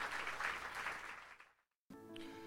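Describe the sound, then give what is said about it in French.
A church audience applauds to acclaim the Lord: dense, steady clapping that holds, then thins and fades to silence midway through. “Est-ce qu'on peut acclamer le Seigneur, Amen.”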